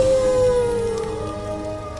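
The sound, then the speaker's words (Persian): A wolf howls at night in a winter desert: one long, sustained tonal cry that glides slowly downward in pitch over a steady low background murmur. “شب بود، زمستان بود، بیابان بود، ساعت دلحال آوری بود. گرگی زوجه کشید”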